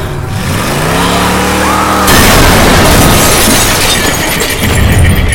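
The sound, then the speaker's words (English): A pickup truck crashes into the back of a car: an engine roar climbs for about two seconds, then a sudden loud impact with shattering glass, followed by scattered crunching and clattering debris. “The truck crashes into the back of James's car.”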